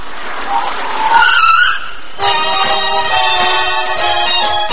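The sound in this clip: Tires skid with a loud, hissing screech for about two seconds as a taxi pulls up, followed by a sustained tonal sound.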